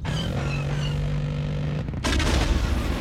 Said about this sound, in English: We got her! We blew that ship out of the air!